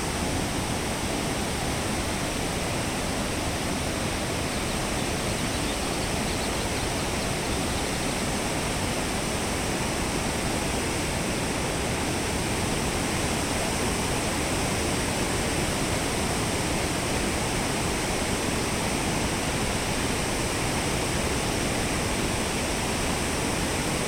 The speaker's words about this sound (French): Vous ne discernez que le grondement de l'eau, surgissant de la falaise avant d'entamer sa chute vertigineuse.